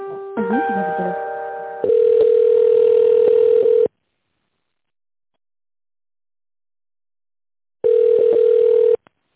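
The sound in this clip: Telephone ringback tone while an office call is transferred: two long, steady buzzing tones separated by a silent gap, preceded by a short passage of other electronic tones.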